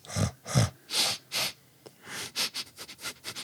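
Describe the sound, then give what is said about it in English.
A human voice imitates a dog sniffing at an outstretched hand, producing many quick, breathy sniffs and snorts in uneven bursts. The first few are strong, and later ones come faster and lighter. “and just sniffs you a little bit”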